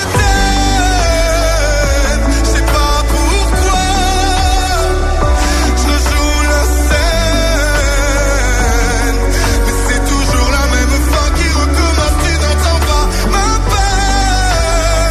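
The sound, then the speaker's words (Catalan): A French entry song for the 68th Eurovision Song Contest, held in Malmö, Sweden, plays as loud, continuous full-band pop music with a steady beat and a dense, sustained texture throughout. “És la cançó francesa i sona així.”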